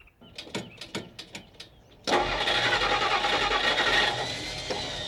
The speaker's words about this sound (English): God darn it, this dang old truck has let me down for the last dang time,